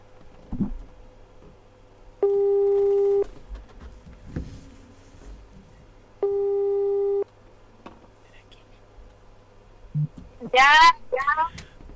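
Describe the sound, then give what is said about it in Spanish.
Telephone line tone while a call is placed to a listener: two steady, one-second electronic beeps about four seconds apart, with faint clicks and low background noise between them. “tenemos otro llamadito ahí para una persona que quiera participar. Vamos a llamarla a ver si me contesta.”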